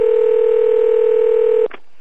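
Telephone dial tone as an internet phone call connects: one steady, single-pitched hum holds for about a second and a half, then cuts off into a short burst and near silence.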